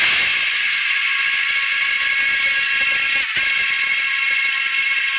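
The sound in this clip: A loud, steady high whine and hiss from the Large Hadron Collider being switched back on after an upgrade, holding constant throughout with only a brief dip partway through, with no voices.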